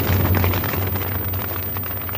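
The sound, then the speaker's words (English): A blazing fire roars as laboratory chemicals and equipment ignite: a dense, loud, steady rush of noise with rough crackling texture that holds throughout, with no voices. “Tumbling into the laboratory, the two figures smash into chemicals and equipment, which ignite into a blazing inferno.”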